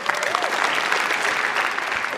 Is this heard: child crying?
no

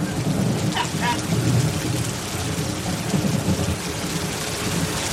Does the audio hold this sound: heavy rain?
yes

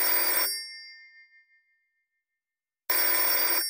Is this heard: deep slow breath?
no

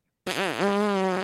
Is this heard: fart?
yes

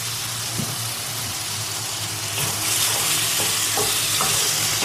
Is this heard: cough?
no

